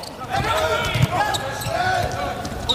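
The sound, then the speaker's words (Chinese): A volleyball is served hard by Germany's outside hitter in a match against China. The single thud of the ball being struck is brief and sits under a continuous roar from the crowd and a commentator's voice. “66号德国队的主攻手勒尔斯率先来发球， 上来球发就很凶啊。”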